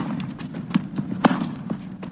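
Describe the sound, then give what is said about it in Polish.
A tennis ball bounces on a red clay court, a few soft, dull thuds in quick succession over a low background rumble. “No, a piłeczka powoli, coraz szybciej odbija się od tej czerwonej mączki.”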